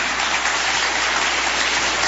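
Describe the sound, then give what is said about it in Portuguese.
Church audience clapping to welcome the pastor, a dense, even wash of applause that continues without a break. “Vamos receber o pastor com as palmas para Jesus.”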